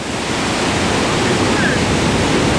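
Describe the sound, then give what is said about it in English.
Victoria Falls on the Zambia–Zimbabwe border thunders as a huge volume of water plunges, giving a loud, dense, unbroken roar of rushing water that stays steady throughout. “That incredible sound you can hear, that thunderous sound, is the sound of the Victoria Falls here on the border of Zambia and Zimbabwe in southern Africa.”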